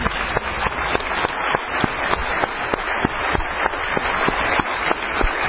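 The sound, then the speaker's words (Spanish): A crowd applauding at a political gathering in Argentina, with a steady, dense wash of clapping that holds an even loudness for several seconds, individual sharp claps standing out now and then, slightly muffled in tone and without voices. “Empecemos con un aplauso porque estamos de vuelta.”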